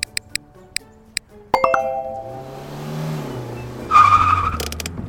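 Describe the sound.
A car pulls up for a ride-share pickup with a brief squeal of tires near the end, preceded by a few short ticks and a ringing chime-like tone at the start.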